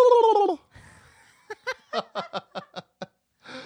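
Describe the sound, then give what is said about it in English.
A human voice imitates a turkey gobble, letting out eight rapid, throaty bursts in a quick string, between a brief wavering vocal sound at the start and another short utterance at the end. “Make a turkey noise.”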